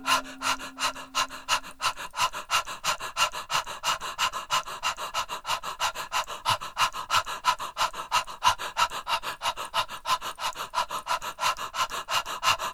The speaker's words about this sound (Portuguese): Vamos agora respirar de forma circular pela boca.